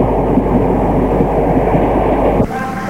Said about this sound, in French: Enfin, le train arrive.